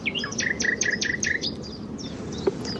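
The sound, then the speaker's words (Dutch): Nightingale and chaffinch sing in the coastal dunes between Noordwijk and Zandvoort: a fast run of bright repeated notes, then softer scattered chirps and a single short click near the end. “en onder meer in de gemeente Bentveld, de nachtegaal, de vink, de vitus en een vliegtuig.”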